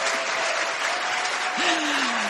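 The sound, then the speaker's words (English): Audience applause welcoming a speaker to the stage at a talk, dense and steady clapping at an even loudness throughout the brief clip. “So give her a big clap so that she feels supported.”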